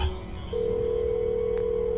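A telephone line tone as a call is dialed: a steady, low electronic tone begins after a brief pause and holds unbroken to the end.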